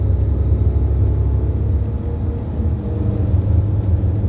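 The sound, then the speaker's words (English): A truck idling in an intersection: a low, steady engine rumble, fairly loud and unchanging throughout, with no voices. “That's a truck sitting in the intersection with light activity.”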